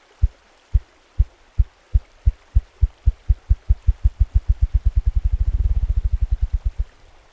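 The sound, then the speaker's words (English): Ruffed grouse drumming during the spring mating season: many deep, low thumps that start slow and spaced, speed up into a rapid rolling flutter, then fade out, with no voices. “Do you hear that drumming sound? We often hear that sound in the spring when the ruffed grouse is seeking a mate.”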